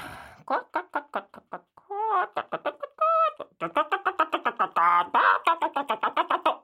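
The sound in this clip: A voice imitates hens clucking in a cartoon-like setting: many quick, pitched cluck-like bursts in a rapid, uneven chatter, fairly loud throughout.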